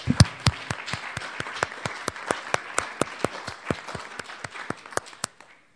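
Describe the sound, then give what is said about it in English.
Audience applause welcoming a speaker at a California Council of the Blind event; a run of sharp, evenly spaced claps that stays steady, then thins and stops near the end. “So let's give him a hand and welcome.”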